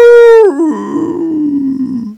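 A wolf howl: one loud, sustained tonal cry that holds level, then drops sharply in pitch and trails off into a lower, rough, groaning tail before cutting out.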